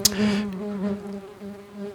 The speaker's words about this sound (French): On s'éloigne un peu des ruches. Hein, parce que quand même, on savait un petit peu des ruches.